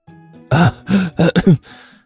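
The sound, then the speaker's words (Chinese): A voice performs dry, forced coughs as a string of short, loud, throaty bursts in quick succession, the last two nearly running together. “齐剑干咳了两声”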